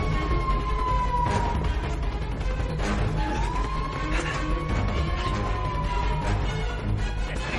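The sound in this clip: A black sedan's car alarm goes off in a parking lot. Its wavering electronic tone holds through the whole clip over a dense, loud background rumble.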